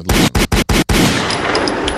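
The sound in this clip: Loud gunshot sound effects are played as a tribute: a few rapid machine-gun bursts separated by brief gaps, then a sustained roar of gunfire with no voices.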